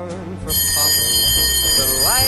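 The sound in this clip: A school bell rings on and on with a loud, steady, piercing tone that cuts in after a brief opening and continues to the end, with voices underneath.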